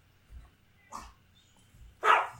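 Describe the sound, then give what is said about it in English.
A dog barks in a few short, sharp yaps, with a soft thump before them. The final bark is the loudest and brightest. “I got something else to get to get too, which will take place as soon as my dog stop barking.”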